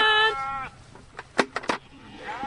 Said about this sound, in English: There are 40 cute little woolly lambs on duty, pruning the grapevines into tip-top shape.